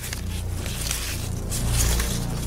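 Paper slips rustled and mixed around inside a hat: a steady, continuous crackling rustle throughout, growing slightly louder toward the end, with no talk.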